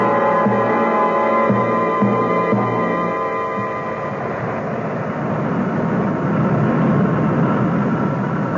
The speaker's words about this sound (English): coming in for the landing now.